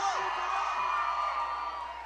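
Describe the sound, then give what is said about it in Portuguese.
A crowd at a live DJ sound-system show at a sports court shouts and cheers in a sustained, dense roar when asked to make noise, with a couple of high whoops sliding downward early on. “Quem gostou da número 1, dá um grito!”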